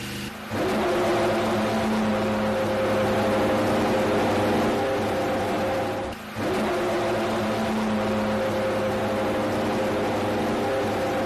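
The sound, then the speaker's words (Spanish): A Mercedes Formula 1 car engine fires up and runs loud and steady with a buzzing, tonal whine, dipping briefly midway before carrying on at the same level. “Ahí tenéis el sonido de ese Mercedes de Fórmula 1.”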